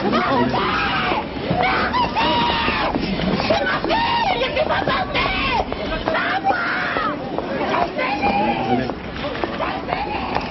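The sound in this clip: A mother cries and screams outside a courthouse after a criminal verdict. Her loud, wavering wails rise and fall over a steady babble of other voices, and people talk and shout around her.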